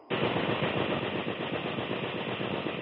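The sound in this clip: Machine-gun fire aimed at a bush in a war drama. One unbroken rapid burst starts abruptly and hammers on at steady loudness to the end.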